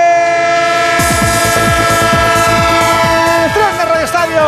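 Loud train sound effect: a sustained, chord-like horn blares over rapid rhythmic chugging with repeated falling sweeps, and the horn's pitch drops near the end.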